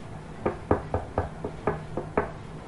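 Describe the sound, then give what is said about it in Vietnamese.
Eight knocks on a wall in an even, steady rhythm, each a dull, solid rap of moderate loudness, with nothing else between them. “Tiếng gõ trên vách tường như ra hiệu khiến cho Hạ Diệp Trầm hoàn hồn.”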